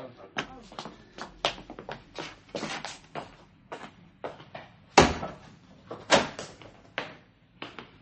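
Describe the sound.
A shop door being opened on returning to a shop, heard as a run of clunks, rattles and shuffling knocks, with a sharper, louder bang midway and another strong knock soon after.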